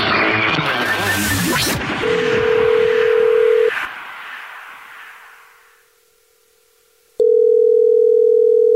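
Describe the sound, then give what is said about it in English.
A telephone line tone sounds as a caller is phoned back. A steady tone first plays briefly under a loud burst of mixed noise, then the noise fades to near silence and a loud continuous tone holds to the end. “You texted in at 41061 that you have a dirty little secret, so it's a Jubal Show, and we're calling you back.”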